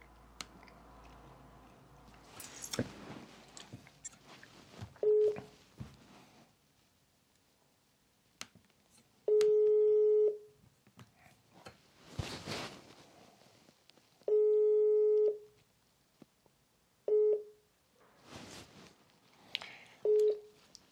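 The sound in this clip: A WhatsApp call ringing tone: electronic beeps with two longer tones of about a second each and a few short blips, separated by quiet gaps with scattered clicks and rustling.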